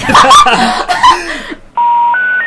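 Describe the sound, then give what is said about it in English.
Electronic telephone tones on a long-distance call line: after a stretch of talking voices, a steady beep sounds, then steps up to a higher steady tone. “Please check the code and try again, or call your long distance company for assistance.”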